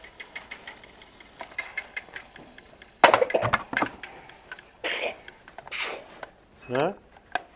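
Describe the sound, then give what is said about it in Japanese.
Repeated sneezing: a few sharp, breathy bursts in quick succession stand out loudly over a background of faint clicks and taps. “くしゃみしまくってんの”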